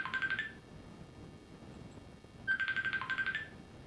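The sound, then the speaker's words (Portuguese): A telephone call that fails to connect sounds as two short bursts of rapid, pulsed electronic beeps, separated by about two seconds of near silence. The tones are faint. “Não está dando. É, só que é falha de completar a ligação.”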